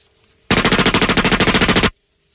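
Automatic gunfire rips out in a single loud, rapid burst of evenly spaced shots lasting about a second and a half, with silence before and after.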